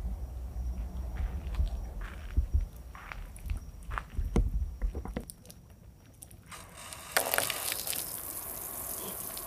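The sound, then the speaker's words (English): Footsteps walk along a dock toward its end as a faint, irregular series of soft thuds and knocks. A quieter pause follows, then a broad, steady rushing hiss. “walk to the end of the dock here and listen to the water for a second.”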